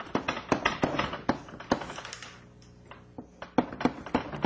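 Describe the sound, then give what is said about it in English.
Writing an equation on a board produces quick, irregular sharp taps and strokes, with a short quieter pause midway before the tapping resumes. “Quantum criticalizing model, so with a transverse field. I'll just write up the Hamiltonian.”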